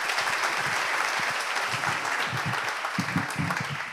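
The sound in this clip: Audience applause, a dense, steady clatter of many hands clapping that holds strong for the whole clip and thins slightly at the end.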